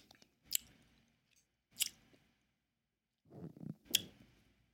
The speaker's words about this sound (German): Jetzt koste ich einmal. Bis jetzt habe ich noch gerochen.